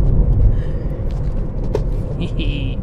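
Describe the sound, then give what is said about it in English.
Road noise inside a car driving on the road: a constant, low, dense rumble that fills the whole stretch, with people talking over it. “we're on the road again. We're driving, doing a podcast. I don't know if you could tell by the background noise.”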